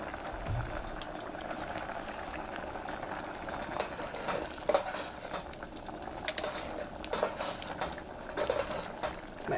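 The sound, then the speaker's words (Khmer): Stirring a glutinous rice dessert in a cooking pot: continuous scraping and clattering of a utensil against the pot, with a few sharper knocks scattered through, over a soft bubbling, steady background and no voices. “យើងត្រូវការកូរវាបានច្រើនដល់បន្តិចដើម្បីកុំឲ្យអង្ករដំណើបវានៅបានឆ្នាំងគឺវាខ្លោច”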